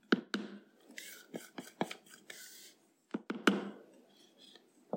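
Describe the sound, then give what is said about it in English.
A rubber spatula folds a melted chocolate, butter and espresso mixture into an egg mixture in a bowl, producing soft, irregular scrapes and light taps of varying loudness with brief pauses between them. “Okay, and then I'm using a rubber spatula to mix it.”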